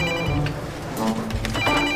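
Telephone ringing, a loud electronic ring with warbling tones that fills the whole two seconds.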